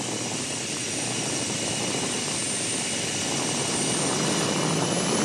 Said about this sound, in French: Oh là là, quand j'accélère, j'entends la turbine qui se met en route.